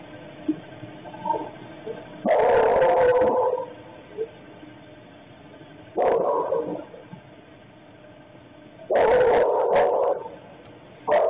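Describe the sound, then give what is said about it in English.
A dog barks violently in a few loud, harsh bursts separated by quieter gaps, with a thin, muffled quality and no talking. “you hear a whimper, and then you hear the dog, Murphy, begin barking violently.”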